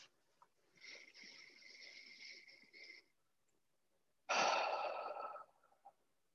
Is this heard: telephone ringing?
no